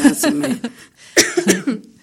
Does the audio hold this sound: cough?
yes